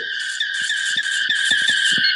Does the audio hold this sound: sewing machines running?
no

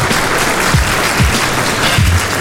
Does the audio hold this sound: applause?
yes

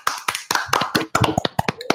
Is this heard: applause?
yes

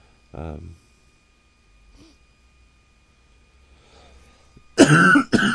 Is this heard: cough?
yes

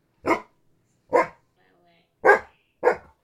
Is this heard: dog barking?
yes

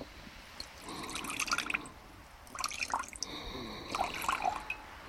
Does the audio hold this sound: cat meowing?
no

